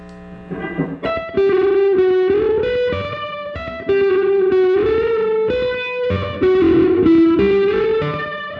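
Electric guitar through a fuzz effect pedal set to heavy fuzz: a slow melodic line of sustained, held notes with a thick, harmonic-rich distorted tone, loud and steady throughout, with no talk.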